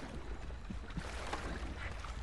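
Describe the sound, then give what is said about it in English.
An oar paddles a boat through water, giving a quiet, steady wash of sloshing and light splashing with soft, irregular strokes. “Kitty looks around at Simon, who keeps paddling.”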